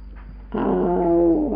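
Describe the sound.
A dog gives a single drawn-out, whining growl lasting about a second. The cry is clear and tonal, and quiet background hum comes before it.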